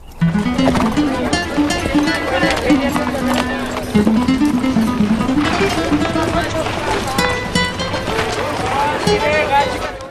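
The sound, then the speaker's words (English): Hoofbeats of several horses as riders arrive in the bustling town of Tortuga, a steady running patter of hooves that continues throughout beneath a voice and a low tonal line. “Horsemen arrive in the bustling town of Tortuga.”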